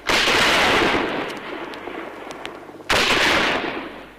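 Gunfire in a soldiers' assault on a surrounded house: two loud, sharp blasts, each with a long rumbling decay that slowly fades.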